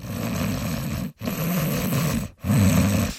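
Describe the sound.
A voice imitates a taxi driver's heavy, labored breathing. Three long, rasping, snore-like breaths are heard, each separated by a short pause.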